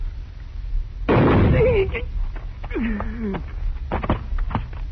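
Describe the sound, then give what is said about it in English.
A single sharp gunshot blast rings out in a western radio drama about a marshal and a killer, its loud burst trailing off before people begin talking. “It is impossible that someone could shoot faster than Senor Drew. And with your left hand. Oh, Chico, you are so very quick with your gun.”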